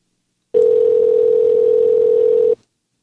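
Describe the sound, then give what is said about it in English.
An unanswered telephone call rings out with a single steady electronic tone about two seconds long. The tone starts and stops abruptly, with silence on either side. “Damn it, pick up the phone.”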